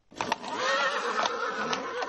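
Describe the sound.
A horse whinnies as a horse-drawn carriage arrives with a hussar escort at a reform-era costume ball, a sustained, strained call running about two seconds with a few sharper accents along the way.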